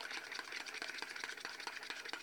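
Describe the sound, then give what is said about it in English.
Whisk beating eggs in a bowl by hand: a steady stream of quick, rhythmic clicking and tapping strokes that keeps an even pace throughout, with no voices. “She's getting a nice good whisk going.”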